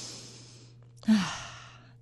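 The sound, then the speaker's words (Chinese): A person drawing a deep breath to demonstrate breathing: a soft airy rush, a brief pause, then one louder breathy surge that swells quickly and tapers off slowly. “像我现在来呼吸给大家看了，我要吸了，这样像这样子”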